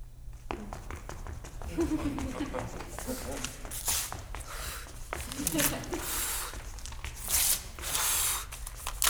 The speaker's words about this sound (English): She ends with ripping up some of the script and blowing it across the stage.